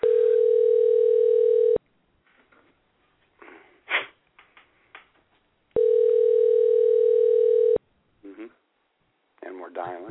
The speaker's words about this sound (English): And we're dialing.